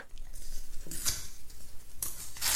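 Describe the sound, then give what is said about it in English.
An envelope being slit open with a letter opener on an awards stage gives a few sharp, papery tearing and slicing bursts, separated by quieter rustling. “I'm going to use a drywall saw to cut through the envelope. So what I like to use is a letter opener. Here we go.”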